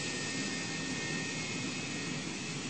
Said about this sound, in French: Attachez vos ceintures. Ne fumez pas. On décolle dans deux minutes.